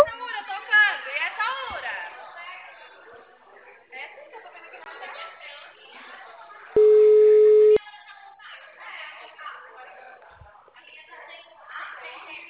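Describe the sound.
A steady single-pitched phone tone sounds once for about a second after a dropped call, cutting in between stretches of ongoing talk.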